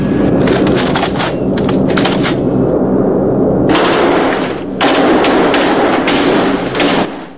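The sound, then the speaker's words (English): Bomber aircraft machine guns test-fired in flight: sustained, loud, rapid bursts of gunfire with a couple of brief pauses, over a constant low rumble. “Okay, let's test our guns.”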